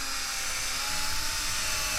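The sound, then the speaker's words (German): Drill boring a small, shallow hollow to hold a ball in a homemade craft piece: a steady, high-pitched whirring whine that runs continuously without pauses. “Wir wollen ja kein Loch bohren, kein tiefes, sondern wirklich bloß so eine kleine Mulde.”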